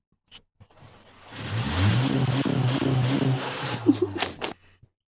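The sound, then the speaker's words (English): A car engine revs hard against its rev limiter, a loud, sustained roar lasting a few seconds. It has a stuttering, pulsing edge near the top before it cuts off. “Could you hear it? Oh, we can hear it. What was that? That was the rev limiter, man.”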